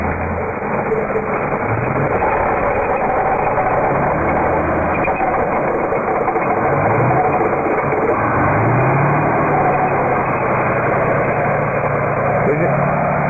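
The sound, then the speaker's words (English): Russian military trucks arriving at a Ukrainian base idle and rumble in a steady, low, muffled drone, heard over a telephone line and staying loud and continuous throughout. “This is the sound of Russian equipment arriving at the Ukrainian base.”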